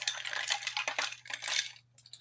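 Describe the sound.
Ice rattles and clinks as a cocktail with a dash of Angostura bitters is stirred, giving a quick run of bright, irregular clinks that thin out toward the end over a faint low hum.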